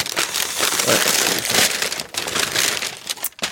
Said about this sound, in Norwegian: Jeg skal åpne. Ja, åpne. Herregud, er det du som har pakket inn? Jeg har pakket inn selv.